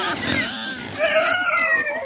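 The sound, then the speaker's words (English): Piglets bred from heritage sows on a farm raising grass-fed and pastured livestock give off high, wavering squeals and soft grunts, the tonal cries growing stronger partway through over a steady, moderately loud background. “As we walk past piglets bred from heritage sows”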